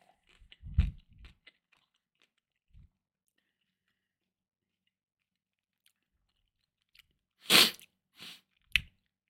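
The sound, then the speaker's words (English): Crunchy chewing of blueberries eaten from a cup for ASMR: a few close, sharp bites and munches separated by a long quiet stretch. “Sorry, guys. A little ASMR for you. Little cup of blueberries, because blueberries help you help.”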